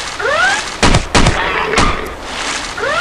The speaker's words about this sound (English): I can shoot in the screen. Like that. You die.